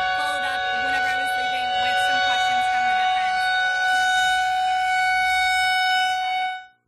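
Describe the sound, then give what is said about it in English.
A civil defense siren sounds during its monthly test: a loud, sustained, steady tone held for about six seconds before it cuts off, with a voice faintly audible beneath it. “Sorry, sirens check. We did not think about that one, but we will hopefully have an update for you on that story once the monthly siren check has finished up for the month.”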